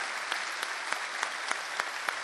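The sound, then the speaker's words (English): Audience applause in a concert hall at a bluegrass music program, a dense, steady wash of many hands clapping with a few sharper claps standing out, moderately loud and without talk. “Let's have another nice round of applause”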